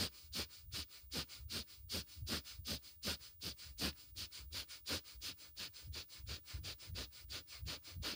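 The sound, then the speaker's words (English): Rapid, forceful nasal breathing of a breath-of-fire exercise: many short, sharp sniff-like pulses repeating at a fast, even rhythm of several per second, quiet and without talk. “Inhale out, exhale in, inhale out, exhale in. Breath of fire.”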